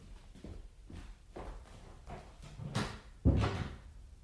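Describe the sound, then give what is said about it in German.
A door being closed, landing as one solid thump near the end, preceded by several softer knocks and rustles. “Und nun gehen Sie mal nach nebenan. Die Tür machen wir zu.”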